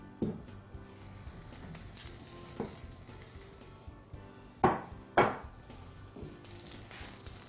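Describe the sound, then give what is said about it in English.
Two clear knocks as a mixing bowl is moved on a kitchen counter, set against a faint, steady sizzle of frying food, with a few lighter clinks of utensils around them. “I'm going to go ahead and move my bowl here.”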